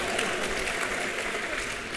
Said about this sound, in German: also guter Moment zum Klatschen.